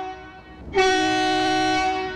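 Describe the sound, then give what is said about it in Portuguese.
A train horn sounds as a single loud, sustained harmonic blast that starts abruptly over a fainter steady tone and holds to the end. “Efeito buzina agora, tá bom”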